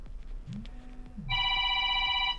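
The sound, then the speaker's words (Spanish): A telephone rings with a bright, steady electronic trill that begins partway through, after a brief stretch of faint low background sound, and continues loudly to the end. “Déjalo que suene. Nos está sonando el teléfono, pero justo el teléfono es el que estamos usando para la comunicación, motivo por el cual lo dejamos que suene.”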